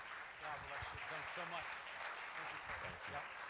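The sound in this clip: An audience applauds as a missionary speaker is welcomed: faint, steady clapping that runs through the whole moment, with voices heard over it.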